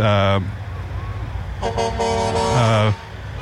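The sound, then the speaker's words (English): Truck horns honking during a street parade: a short loud blast, a pause, then a long sustained horn joined near its end by a second, lower horn, over a low engine rumble. “of course you're going to hear a few a truck horns go”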